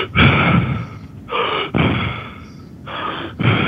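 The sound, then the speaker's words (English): Quick, deeply controlled breaths of a breathing method that involves about thirty breaths in a row, a few loud, rushing breaths in and out following each other in a steady rhythm, with no talk. “essentially what you do is take these long, short, quick, deeply controlled breaths, and they would sound something like this.”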